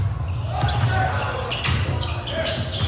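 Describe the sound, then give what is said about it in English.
A leather basketball bounces on a hardwood court, giving a few dull thuds over a continuous background of voices and low rumble. “Those sounds you're hearing, the echo of a leather-wrapped ball bouncing on hardwood, the squeak of rubber soles on polished wood, climax in the swish through a nylon net, bank off the glass or rattle off an iron rim.”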